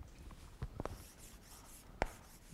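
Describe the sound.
Faint scratching of a pen writing a name by hand on paper, quiet rubbing strokes with a few sharper ticks as the letters are formed.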